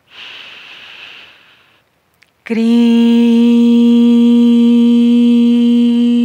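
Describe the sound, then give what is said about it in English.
A deep, airy inhale during a meditative breathing exercise lasts nearly two seconds and tapers off, followed after a short pause by a loud, sustained steady tone that holds to the end. “We inhale again.”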